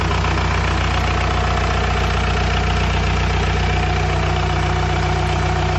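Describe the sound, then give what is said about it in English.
A four-cylinder, mechanically injected diesel engine idles with a loud, steady clattering knock at a very even speed, with no voices over it. “Diesel. Yep. Love the clackety clackety. Four cylinder. Mechanical injected.”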